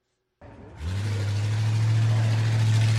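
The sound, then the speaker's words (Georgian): A classic 1965 Ford Mustang fitted for driverless operation has its engine started on a speed-festival race track. A short burst of noise comes first, then a loud, steady, low engine drone that grows slightly louder as it runs. “ეს კლასიკური 1965 წელს გამოშვებული ფორდ მუსტანგი სინამდვილეში თავის თავს მართავს”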